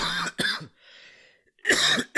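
Throat clearing from a dry throat of someone getting over a cold: two harsh, rasping bursts, a quiet pause, then another loud, rough clearing, with no speech.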